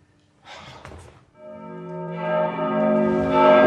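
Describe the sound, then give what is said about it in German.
A church bell of San Marco rings with rich, sustained partials that swell and grow louder over the last two seconds. A short breathy noise comes before the first strike. “Die Glocke von San Marco!”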